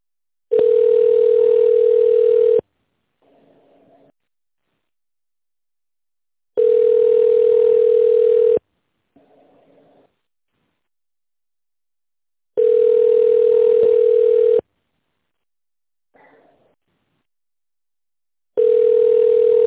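A telephone ringback tone plays while a call is transferred to another department. Four long, steady, buzzing tones are separated by pauses of several seconds, the last one cut off, with faint short sounds in some of the gaps and no talk.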